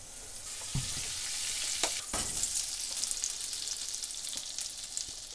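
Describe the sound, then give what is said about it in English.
Mushrooms frying in butter in a pan give a steady, bright, crackling sizzle with a few sharper pops and stirring scrapes, with no talking. “And the foam has subsided. I'm just going to let these mushrooms sit for just a minute just to crisp up nicely.”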